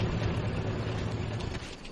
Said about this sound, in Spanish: El hombre de Declan se sube en el camión, lo arranca, da marcha atrás y descubre una escotilla en el suelo.